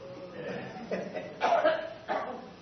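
A woman coughs from a tickle in her throat during a prayer: a few short, rough bursts spaced apart, fairly faint, with soft vocal sounds between them.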